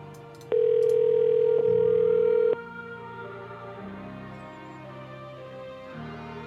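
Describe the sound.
An outgoing telephone call ringing on the line, a single steady tone of about two seconds that stops and leaves a quieter line hum.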